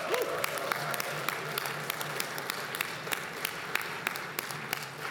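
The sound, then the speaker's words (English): An audience applauds as community members stand to be recognized: soft, steady clapping from many hands with individual claps poking through, fairly faint throughout. “If you have stewarded this community by being on the board, giving financially, being on a committee, helping with fundraising efforts, will you please rise as you are able and make some noise?”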